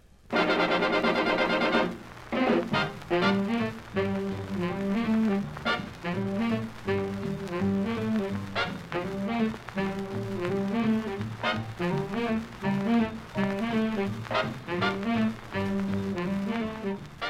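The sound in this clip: Swing big band music plays from a scratchy old 78 rpm record. A sustained opening chord gives way to a steady, bouncing rhythm of punchy horn phrases with a thin, worn tone.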